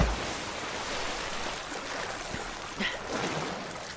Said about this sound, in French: J'aime trop les gouttes d'eau qui, euh, qui tombent dans l'eau après la chute.